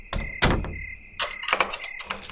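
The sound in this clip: A bedroom door is slammed shut and bolted: sharp wooden knocks and a heavy thump, then a quick run of rattling metallic clicks and clatter as the bolt is worked.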